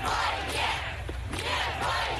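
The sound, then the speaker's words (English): Crowd of anti-war protesters chanting at a street demonstration in Russia: many loud voices merge into rhythmic, swelling waves of shouting that rise and fall in a repeated pattern. “Protesters chanting no to war.”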